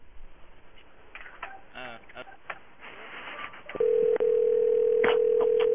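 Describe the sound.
An outgoing call to a pay phone inside a bathroom produces a ringback tone: a steady, loud tone that begins after a stretch of muffled talk and runs to the end with one brief break.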